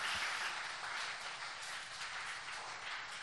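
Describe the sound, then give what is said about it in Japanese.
Soft applause from a church audience honouring a family, a dense patter of many hands kept at a low, even level throughout. “この家族にもですね大きな拍手しましょうか”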